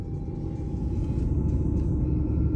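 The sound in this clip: A car drives along a curvy street, giving off a steady low engine and road rumble that is fairly faint and even, with no talking.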